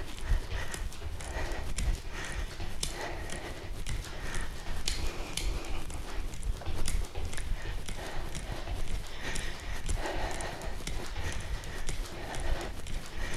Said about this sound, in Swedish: här kan du välja att gå över till att hoppa. En halv minut. Kicka fötterna åt sidan.